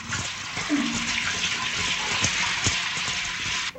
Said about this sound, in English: He pulls her into the shower, fully clothed. As the spray soaks her hair and dress, she kisses him.